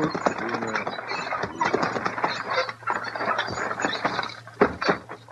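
A team of horses pulls up at a barn, giving a steady busy clatter of hooves and rattling harness gear that runs throughout with a few sharper knocks near the end.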